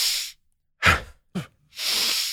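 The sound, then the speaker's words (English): Cyclic hyperventilation breathing, deep inhales through the nose and brief exhales through the mouth, heard as a few loud, breathy rushes of air separated by short silences, with no talk. “taking a big, deep inhale through the nose, which will raise your heart rate. So, and then a brief exhale through the mouth, just dump a little bit of air.”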